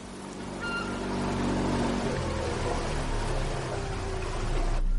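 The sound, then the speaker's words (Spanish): Motorboat engine drones steadily as the boat arrives at a wooden jetty by a house. The hum is low and continuous with a broad wash of noise, holding an even, moderate level and swelling slightly toward the end. “los hijos de Amadeo llegan en lancha hasta el embarcadero de la casa de Adrián.”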